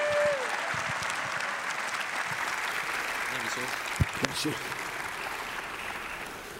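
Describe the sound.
Church audience at Calvary applauding to welcome a guest speaker: a steady, even wash of clapping runs throughout, with a couple of sharper knocks standing out partway through.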